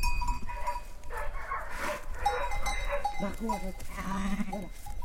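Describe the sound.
Sheep bleating among cows on a mountainside before the first snow, with several wavering bleats overlapping through steady background noise.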